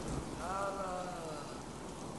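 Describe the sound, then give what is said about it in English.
Heavy rain pouring down as a dense, steady hiss that fills the whole clip, with a brief faint tonal sound early on. “Rain pours over Bowen's face.”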